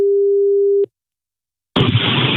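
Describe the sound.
A telephone call is placed: a steady low dial tone holds for under a second and cuts off, a short silence follows, then loud hissing line noise bursts in and continues to the end.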